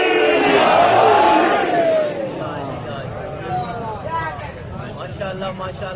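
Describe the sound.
A large crowd roars a massed chanted response to a religious slogan call praising Ali, a loud sustained shout that gradually breaks into a rougher babble of many voices.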